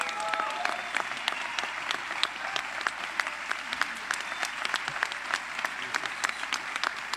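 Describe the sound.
Applause from a jazz festival audience, an even and fairly soft bed of clapping marked by many sharp individual claps that carries on steadily.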